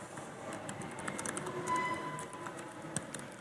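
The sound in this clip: Quiet typing on a laptop keyboard while entering a Git commit message, with light, irregular key clicks in quick bursts and brief pauses between them.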